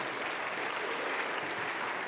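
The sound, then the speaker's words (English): Congregation applauding the church praise team, a dense, continuous wash of clapping hands held at an even level from start to finish. “Man, why don't y'all clap it up for the praise team? Because they were working hard today.”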